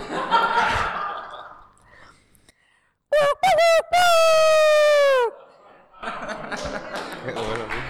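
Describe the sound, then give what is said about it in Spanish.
A human voice imitates a rooster crowing, with a few short clipped notes and then a long sustained call that drops in pitch at the end, with talk before and after. “Te voy a hacer el sonido del canto de los gallos.”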